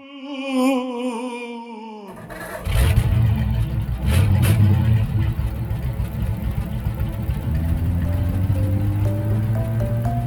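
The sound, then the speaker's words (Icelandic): An engine starts and a vehicle drives off: a gritty, rumbling roar builds, then a steadily climbing engine pitch follows as it accelerates away. “Eigum ekki bara að ræsa vélina og bruna af staðin í sögu dagsins?”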